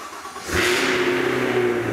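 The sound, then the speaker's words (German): A Cadillac Escalade V's 6.2-litre V8 engine revving: the sound swells suddenly into a loud, full-throated roar that holds steady with a deep droning hum underneath. “Das ist 6,2 Liter V8.”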